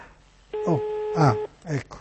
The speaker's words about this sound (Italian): Siamo al quarto tentativo, quarta telefonata, quarto numero, sì. Proviamo con questa.